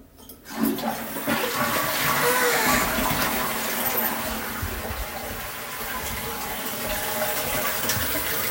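A toilet flushes with a sudden loud rush of water that starts abruptly, then settles into a steady, sustained gushing and swirling as the bowl drains and refills.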